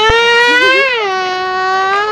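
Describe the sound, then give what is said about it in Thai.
A voice imitates a car engine with a loud, sustained, buzzing vocal tone, held for about two seconds. Its pitch drops a step about midway and then stays level. “ไม่ได้ร้องมันคือเสียงนั้นแหละ อ๋อทำเสียงรถ”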